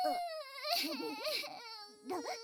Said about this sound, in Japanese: 騙されちゃダメだよ、お兄さん。これ、絶対嘘泣きだから。